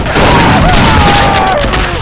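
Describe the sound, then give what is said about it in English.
Gunfire during an armed standoff, with men shooting at others who are urged to surrender; a loud, dense barrage of blasts runs continuously, without separable single shots. “Jesus God, don't shoot no more!”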